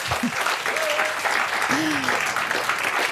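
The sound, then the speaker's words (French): Applause from the audience at the Le Livre sur les quais book festival in Morges, with steady clapping throughout and a few voices rising over it. “On est en direct du livre sur les quais à Morges. Si, je vous assure, entendez le public.”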